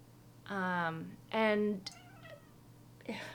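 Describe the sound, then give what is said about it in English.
A domestic cat meows twice, each meow drawn out and loud with a clear harmonic tone. A few fainter, brief sounds follow. “Sorry, that's the cat.”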